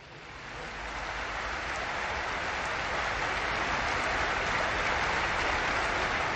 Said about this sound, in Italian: la salutiamo con un applauso